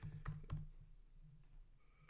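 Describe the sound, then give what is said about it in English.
Typing on a computer keyboard: a few soft, quick key clicks early on, then quieter low background with only faint, scattered taps. “I'll type it in.”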